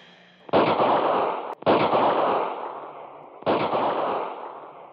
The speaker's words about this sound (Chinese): 只见大车后面又扫出了一个点射，鬼子的机枪顿时哑火了